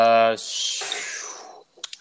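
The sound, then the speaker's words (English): Many dice rolled together for a tabletop game, heard as a rattling clatter right after a brief voice. The clatter fades out over about a second, and a few light clicks follow. “You know, and just talk amongst yourselves while I roll all these dice.”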